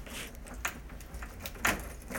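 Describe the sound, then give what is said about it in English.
Keys jangling as someone locks a bedroom door: faint, light metallic jingles with a few sharper clinks and clicks, heard alone. “Locking my bedroom door. Yes, my bedroom.”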